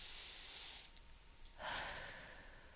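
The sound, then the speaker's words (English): A deep breath taken alone. A long, airy inhale is followed after a short pause by a stronger, hissing exhale, both soft and breathy. “let's take a deep breath”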